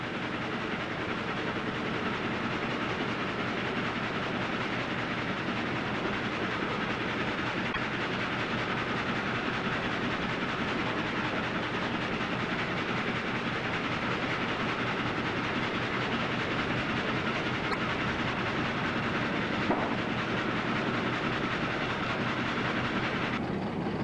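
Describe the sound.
Sawmill machinery running while logs are fed in one after another without interruption, a steady, loud mechanical rumble and clatter that continues unbroken.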